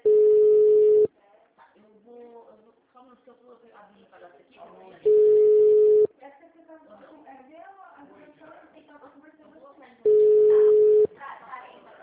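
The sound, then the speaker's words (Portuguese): A telephone busy signal sounds as three steady, mid-pitched tone bursts of about a second each, spaced several seconds apart, with someone talking in the gaps between them. “Chamada sobre ocupado. Chamada sobre ocupado.”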